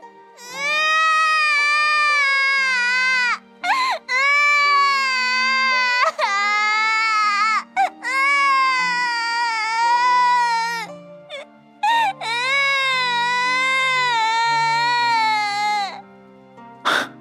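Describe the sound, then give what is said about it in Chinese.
A child crying loudly: four long, high, wavering wails broken by short, sharp gasping inhales, sustained and strong throughout. “水坑小心翼翼地伸手拉了拉他的衣摆，见程潜不理，也索性跟着大哭了起来。”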